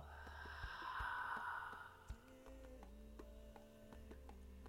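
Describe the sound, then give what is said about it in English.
A deep breath during a guided breathing meditation sounds as a faint, airy whoosh lasting over a second, then gives way to a low, steady hum. “Again, inhale. And exhale.”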